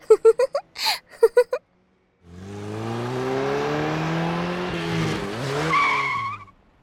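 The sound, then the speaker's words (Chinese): A sports car engine revs hard in a loud, sustained roar that climbs in pitch for about four seconds before cutting off. A few short, separate bursts of sound come before it. “这个时代还有这种鬼火少年啊，油门踩得要炸天，不知道差点把我耳朵震聋了呀，讨厌死了。不要以为开了一辆高级跑车就出来嘚瑟”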